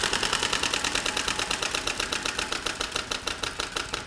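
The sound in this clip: Rapid ratcheting clicks from a prize wheel being spun, a steady stream of sharp ticks that gradually spaces out as the wheel slows, with no voices.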